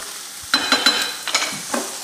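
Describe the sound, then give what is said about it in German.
A mixture sizzles in a frying pan as it is tossed into the air. A few sharp bursts of hiss rise out of a steady, low frying crackle. “Jetzt hat er gerade die ganze Mischung geschwenkt.”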